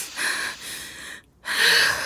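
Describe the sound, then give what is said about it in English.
A person takes deep breaths in and out with an airy, breathy hiss: two long breaths, a short silent pause, then a louder final breath, with no talk. “Let's take a breath.”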